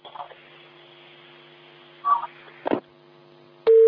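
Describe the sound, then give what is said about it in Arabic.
A telephone call is cut off and a disconnect tone sounds. A few brief, faint bursts come first, then a loud, steady tone starts abruptly at the very end. “انقطع الاتصال، يعاود اتصال تاني محروس”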